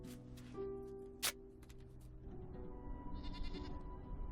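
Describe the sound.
Goats bleat in the desert, a few faint, wavering calls over a low, steady background.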